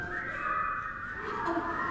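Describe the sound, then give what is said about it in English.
Congregation in a church whistling a tune together: a blended, sustained high whistle that drifts up and down in pitch throughout, with no words. “So let's try this one more time. The whistle part is yours.”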